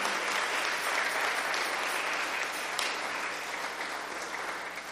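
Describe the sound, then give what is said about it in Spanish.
Church audience clapping for the Lord, a bright, steady wash of many hands clapping together, fairly loud and even from start to finish, with no speech over it. “¿Cuántos pueden darle palmas al Señor?”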